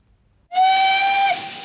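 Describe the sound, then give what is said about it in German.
A steam train whistle sounds as the train departs, one sustained, loud, high, reedy blast rich in overtones that starts abruptly, holds steady, then drops away into a softer hiss. “der Zug fährt schon.”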